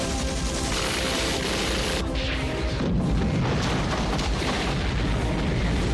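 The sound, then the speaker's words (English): Anti-aircraft guns fire from positions on a beach, a dense, continuous barrage of heavy booms. The pounding runs throughout and grows fuller and louder about halfway through. “Anti-aircraft guns fire from positions on the beach.”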